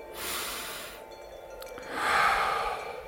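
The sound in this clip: A deep breath taken during a calm, meditative reading: two breathy rushes of air, the first a brighter hissing intake and the second a softer, lower release, with a quiet pause between.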